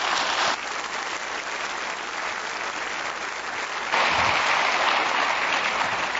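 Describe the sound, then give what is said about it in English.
A church audience applauds to welcome a guest pastor. The clapping is dense and steady throughout, swelling slightly louder near the end, with no talk over it. “Would you please give Kevin a warm Calvary of Albuquerque welcome?”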